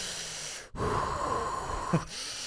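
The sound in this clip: A voice imitates heavy, angry, respirator-style breathing: one long, rasping, hissing breath with a faint whistling tone, set between brief silences.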